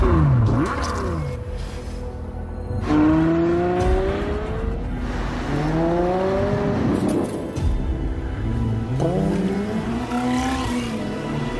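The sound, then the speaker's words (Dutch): A Ferrari V12 engine revs loudly and steadily, its pitch climbing in several rising sweeps over a continuous low rumble. “Je hoort hier al wat V12 geluid doorheen.”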